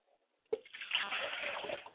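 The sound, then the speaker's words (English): Water poured out as a libation: a sudden splash at the start, then a soft, steady stream of running, splattering liquid that carries on to the end. “I pour libations to my father's spirit, that he might drink well and thirst no more.”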